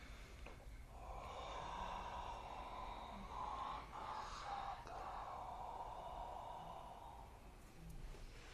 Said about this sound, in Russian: Длинный вдох.